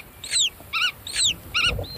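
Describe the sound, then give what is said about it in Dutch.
Black-tailed godwit parents call while flying around and communicating with their chicks still in the egg. Loud, clear calls alternate between a descending whistled sweep and a stacked cluster of short chirps, repeated in a steady back-and-forth pattern. “En wat je hier hoort zijn grutto-ouders die rondvliegen en communiceren met hun jongen in het ei. Die hoor je dus vanuit het ei reageren.”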